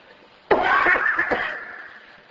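A single abrupt cough from a person during an Arabic religious lesson: one sharp, loud burst that trails off into a fading rasp, with no talk around it.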